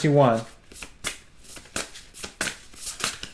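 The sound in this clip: Playing cards handled and shuffled in quick, crisp snapping flicks at an uneven rhythm, with a short vocal sound at the very start.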